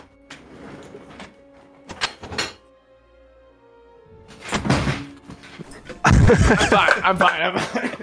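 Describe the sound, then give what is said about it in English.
Bottles get knocked over, first a few clunks and then a loud, sustained clattering rattle, with people talking before it. “You made me knock some bottles over.”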